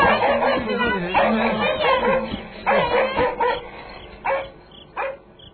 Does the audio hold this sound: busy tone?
no